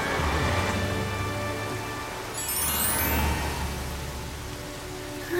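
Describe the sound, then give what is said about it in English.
Heavy rain pouring down during a drive, a loud, steady hiss of falling water that runs continuously without a break. “It's raining so much, I can't see the front.”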